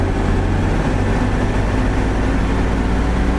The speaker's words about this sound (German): Jetzt wird es wahrscheinlich auch ein bisschen lauter. Ich mache jetzt das Mähwerk an, genau.